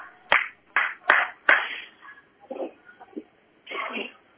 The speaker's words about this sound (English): There's our video guy applauding that fine defensive play of fumbling it out, fumbling the ball out of bounds.